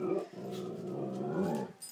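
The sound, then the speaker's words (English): A dog growls in a garden, a low, sustained, throaty rumble with brief breaks, alone throughout. “That, obviously, is a dog.”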